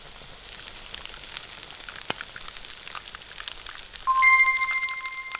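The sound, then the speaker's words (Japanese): Battered shrimp deep-frying in plenty of hot oil in a frying pan, giving a steady crackling sizzle dotted with many small pops, growing briefly louder near the end. “フライパンに多めの油を入れて熱したら、衣をつけたエビを入れて両面色よく揚げます。”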